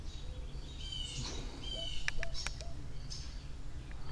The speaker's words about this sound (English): And there's a lot of little birds who are getting upset now.